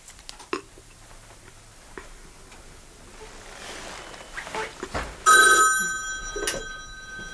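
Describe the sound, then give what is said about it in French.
A telephone rings at the switchboard of a retirement home. A bright, tonal ring bursts out loudly near the end, after a long quiet stretch with a few soft knocks. “Ça va sonner, il va appeler. Il va appeler.”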